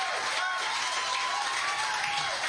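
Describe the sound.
Audience cheering and applause welcome a singer onto the stage in St. Elmo, a steady, hissing wash of clapping and crowd noise at an even, moderate level throughout.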